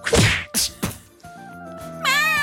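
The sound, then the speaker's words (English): A punch to the face lands as a few sharp, loud thwacks in quick succession, followed by lower sustained tones and a wavering, higher cry-like sound. “punch her in the face”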